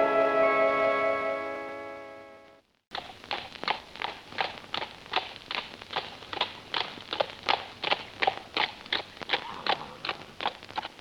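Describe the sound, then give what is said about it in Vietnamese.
Horse hoofbeats of a rider on a steed, in a Vietnamese cải lương opera scene. A sustained tonal note breaks off, then many steady, even clip-clop strikes follow at a brisk walking rhythm. “Ôi, trên tuấn mã vượt muôn trùng cát bụi, hay tin người yêu sắp cất bước sang ngang.”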